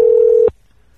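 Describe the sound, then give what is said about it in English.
Ringback tone on an outgoing telephone call: a loud, steady single-pitched tone that holds for half a second, then cuts off abruptly into near silence. “Yeah, the phone is ringing.”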